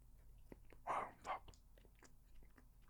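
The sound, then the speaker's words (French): Someone chews a bite of Vachon snack cakes, with two soft, crunchy bites close together followed by quieter chewing, all faint and with no talk. “Ah, je pense que je vais en prendre une autre bouchée, même, c'est tout.”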